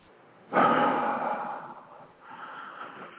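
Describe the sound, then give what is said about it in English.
A big breath drawn sharply in through the nose, then let out through the mouth in a long, breathy exhale that tapers off before a softer second breath. “just take a big breath in through your nose and out through your mouth”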